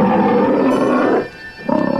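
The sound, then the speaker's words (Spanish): A lion roars, loud and terrifying: a long, rough, sustained roar that breaks off briefly, then resumes as a pulsing, throbbing second roar. “De pronto se escuchó un rugido aterrador.”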